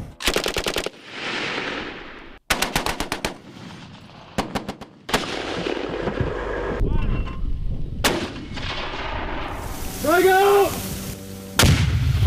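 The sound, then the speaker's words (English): Gunfire from a military live-fire training exercise by scout troops: sharp, rapid automatic bursts and heavy single shots broken by short pauses, loud and cracking, with rumbling echoes in between. “Each troop is going to go through in a three-day succession between dry, blank, and live fire. So today we begin our live fire exercise.”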